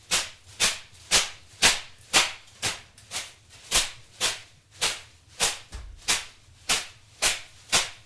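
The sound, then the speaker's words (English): Birch branches beat against skin in a sauna with many sharp, swishing slaps in a steady rhythm of about two per second. Each slap is bright and crisp and fades quickly. “You have a birch. And you hit yourself with a birch.”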